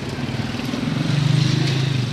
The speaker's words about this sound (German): David drückt aufs Gaspedal. 12 Minuten, sagt das GPS. Das Gerät zeigt die Zeit für die Autos an, aber mit dem Roller geht es schneller.